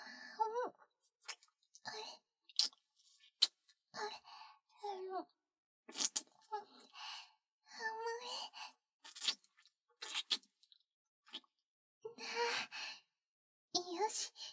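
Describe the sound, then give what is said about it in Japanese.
Wet licking and slurping mouth sounds mixed with soft sighs and a breathy voice, coming in many short bursts separated by brief pauses. “また少し出てきてますね。全部舐め取っちゃいます。”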